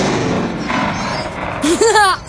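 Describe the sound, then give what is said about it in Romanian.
A flare launcher fires a signal flare during an escape from angry pursuing creatures on a planet: a dense, noisy rumbling texture, then a sharp loud burst near the end with whistling, wavering tones. “Dăm lansatorul de semnalizare. Grăbește-te! Vartarii ăia vin după noi și sunt foarte furioși. Trag racheta.”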